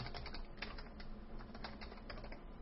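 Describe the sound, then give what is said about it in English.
Typing a password on a computer keyboard: a faint, continuous run of many quick key clicks in an uneven rhythm, heard alone without talking. “So I'll just type in what I want for my password.”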